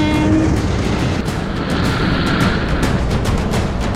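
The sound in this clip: A locomotive roars as a dense, steady wash of rumbling noise. A brief tonal horn note sounds at the very start, then the loud, continuous rush carries on alone without voices.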